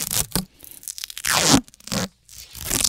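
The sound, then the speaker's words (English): Duct tape is ripped from the roll and pressed down, with several harsh, rasping tearing bursts separated by short pauses. “I've got to apply some duct tape to my skull because I don't want my head to explode all over the studio.”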